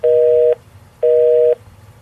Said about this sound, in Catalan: Ara mateix la trucaré per disculpar-me.